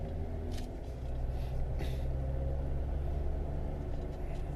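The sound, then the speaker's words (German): A car driving on the way to Eppendorf: a steady, low engine and road rumble that carries on evenly throughout, with no talk. “Jetzt fahren wir nach Eppendorf in Heiners Geburtsort”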